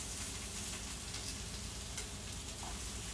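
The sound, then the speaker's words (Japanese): Food sizzles and starts to scorch as it sticks to a pan over medium heat. A steady, dense frying hiss runs throughout with no talk. “あ、やばい、ちょっと焦げついてる。ちょっと中火でも良くなかったか、これは。”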